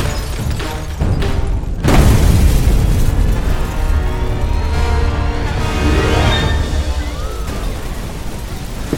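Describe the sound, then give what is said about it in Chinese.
A sudden loud blast rips out about two seconds in: an explosion in a storeroom with a fire burning inside. A dense, sustained roaring rumble follows and stays loud to the end. “杂物间突然爆炸了，里面正烧着呢。”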